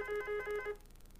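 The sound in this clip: A telephone ringing in a house: a warbling electronic ring in rapid short pulses that stops after under a second, leaving quiet.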